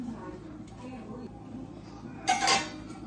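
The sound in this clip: Pots and pans clank as someone rummages through them looking for a big pot. Soft metallic knocks run under a low voice, then a louder clattering burst comes near the end.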